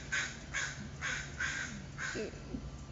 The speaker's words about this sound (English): that was our friendly neighborhood crow. I'm pretty sure you heard him.